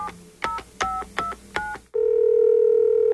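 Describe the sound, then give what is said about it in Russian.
Telephone number being dialed: five short, bright keypad tones at a steady pace. A loud continuous tone follows and holds to the end. “Звоню.”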